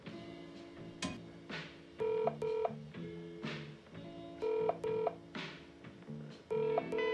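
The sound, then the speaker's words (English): Touch-tone dialing on a telephone connected by cord to a switchboard: several short paired beeps in separate bursts, broken up by soft clicks and handling noise, fairly quiet and with no voices. “Connecting the cord to the board, Faye makes another call.”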